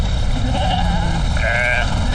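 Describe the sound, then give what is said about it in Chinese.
A flock of sheep bleats, several overlapping wavering cries over a constant rumble of background noise. “羊群越赶越散”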